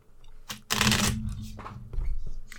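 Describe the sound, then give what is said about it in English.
Playing cards being dealt for a game of Texas Hold'em, with a long dense burst of quick papery snaps and flicks followed by shorter riffling bursts. “So, the first deal goes out. You're dealt out to your cards.”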